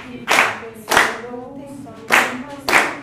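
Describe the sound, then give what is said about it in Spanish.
Hands clapping a rhythm in a music teaching session, four sharp claps falling in two pairs, with a voice speaking in the gaps between them. “Hagamos esta con las palmas. Un, dos, tres, cuatro.”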